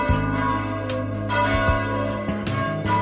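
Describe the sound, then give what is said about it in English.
Bells ringing, a few heavy strikes each followed by a long, rich sustained hum that overlaps the next. “Ring them bells”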